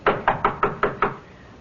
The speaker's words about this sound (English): knock on the door. Again.